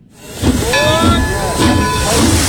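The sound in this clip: Hiss of steam as a train pulls to a stop, used as a sound effect: a loud breathy rush swells in and holds, with thin ringing tones running through it.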